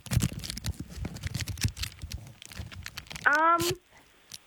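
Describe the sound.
Crinkling and tearing of packaging as a tuna tin is unwrapped, a scattered run of soft crackles heard under people talking, followed by a short voiced sound.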